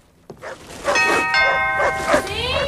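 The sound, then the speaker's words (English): A doorbell rung at a house door sounds bright, ringing chime tones that sustain for a couple of seconds after a sharp onset. “watches him walk up to a door and ring the bell”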